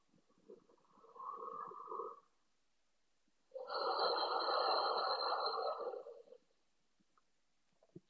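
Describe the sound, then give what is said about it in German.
Deep breaths drawn through the nose with the hands held near the face, carrying a peppermint scented oil: two noisy, airy breath sounds, the second longer and louder, with quiet gaps between them. “Und dann nimm deine Hände Richtung Nase und nimm drei ganz tiefe Atemzüge.”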